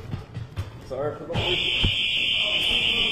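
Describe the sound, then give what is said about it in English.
A fire alarm goes off in a government center, set off by a security door being opened. After about a second of people talking, a loud, steady, piercing high-pitched tone sounds and holds without a break. “they just set off the fire alarm. That is the sound of an alarm going off when Mark Harris”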